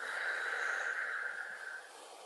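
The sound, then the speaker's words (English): A slow, deep exhale after a held breath in a guided breathing exercise, a soft, steady airy rush that gradually fades over about two seconds. “Hold for 3 seconds and exhale.”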